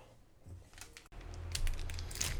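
Plastic packaging of an older-model internal (female) condom made of nitrile rubber is torn open, giving a steady crinkling and rustling that starts suddenly partway through and continues, fairly loud, to the end.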